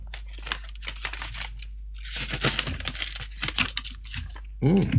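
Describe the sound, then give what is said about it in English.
A white paper envelope is opened, with soft rustles followed by a dense run of crinkling and tearing bursts. A voice speaks at moments. “I've got a white envelope here, and it says my name and nothing else. Hang on.”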